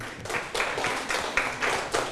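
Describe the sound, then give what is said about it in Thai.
Hands clap for someone in praise after a feat in a told story. The claps come in a steady, evenly spaced run and are moderately faint, with no talking over them. “โอ้โหเก่งมากปรบมือให้นายวัดหน่อย”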